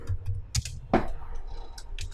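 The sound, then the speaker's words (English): Typing on a computer keyboard, heard as a few quiet, irregular key clicks with one sharper tap in the middle. “Look at you having to type your name.”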